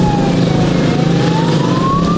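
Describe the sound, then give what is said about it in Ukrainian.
Motorcycle engines and sirens in a village funeral procession: a steady siren tone slowly dips and then climbs in pitch over a loud, continuous engine drone. “35-річного Максима та 36-річного Романа Мосійчуків село Калинівка проводжало в останню путь під гул двигунів і сирени мотоциклів.”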